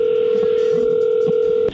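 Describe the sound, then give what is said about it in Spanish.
A telephone line gives a steady, loud, continuous dial tone with an unchanging pitch that cuts off abruptly near the end. There is no talk. “vamos a llamarle a tu esposa Gloria”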